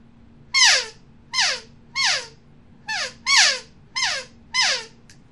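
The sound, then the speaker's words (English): Elk calf calls blown on an open reed call: seven short, squeaky, high-pitched mews, each sliding down in pitch, spaced fairly evenly and clear against a quiet background. “And right now I have one in my hand that makes calf sounds. And I'm going to make a calf sound real quick with that open reed.”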